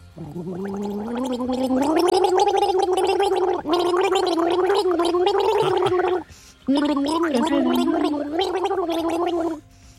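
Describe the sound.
A person gargles the melody of a pop hit, producing a bubbly, wavering tune in long sung phrases. The phrases are split by a brief break and then a longer pause before the gargling resumes and stops.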